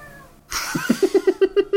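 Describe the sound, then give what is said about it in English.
A pet cat meows, starting with a drawn-out cry and then breaking into a quick run of short, repeated chirping meows at a steady, fairly high pitch, with no talk over it. “Hot incisive commentary from Indy, as always. Indy being Emily's cat.”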